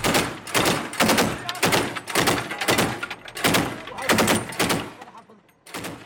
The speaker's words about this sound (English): the gunners on the armoured personnel carrier that we're travelling in are shooting in the direction of the bushes all around